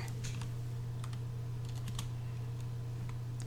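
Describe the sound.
Website address typed on a computer keyboard: a quick, irregular run of many soft key clicks over a steady low electrical hum.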